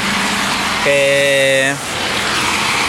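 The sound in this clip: City street traffic on Blasco Ibáñez avenue: a steady, loud roar of passing vehicles throughout, with a sustained horn-like tone blaring for about a second in the middle.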